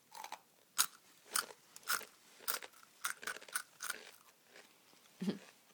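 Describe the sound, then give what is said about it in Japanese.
Someone bites and chews crunchy Jagariko potato snack sticks in tarako butter flavour. Sharp, crisp crunches come in an irregular series of many bites, with softer crackling between them and no talk. “じゃがりこ、 うん、じゃがりこ美味しいね。たらこの、たらこっぽい味がする。”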